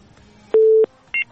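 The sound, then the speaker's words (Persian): A dropped telephone call ends in two electronic beeps: a longer, steady low tone, then a short, higher tone after a brief gap. “بله، بازم تماس قطع شد.”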